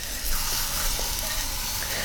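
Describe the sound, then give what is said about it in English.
Food glazed with boiling sugar sizzles cut side down on a hot grill. A steady, bright hiss continues throughout at an even level, with a slight swell just after the start. “Okay, one more flip so we get a nice grill mark on the cut side.”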